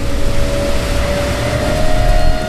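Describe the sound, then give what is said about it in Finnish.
Engine drone of a foiling boat lifting fully out of the water at 17 knots: a loud, steady hum with a sustained tonal whine running through it, no voices. “meillä on 17 solmun nopeutta ja vene lähti nyt kokonaan irti vedestä.”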